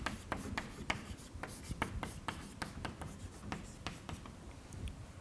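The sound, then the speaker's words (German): Handwriting during a physics explanation of redshift: many short, scratchy pen or chalk strokes in an uneven rhythm, fairly faint and heard alone without speech. “Schreibe ich mal hier hin.”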